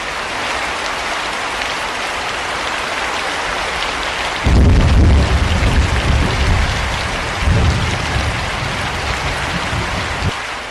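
Heavy rain pours down as people climb the stairs to a cemetery. A dense, steady hiss of drops is joined by low thunder rumbles near the middle.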